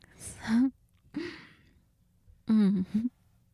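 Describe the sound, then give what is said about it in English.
Deep breaths drawn in while someone is told to relax during a back rub. Three separate, fairly quiet breath sounds with silence between them, the first and last turning into soft voiced sighs at the end. “Okay, now just breathe in and relax.”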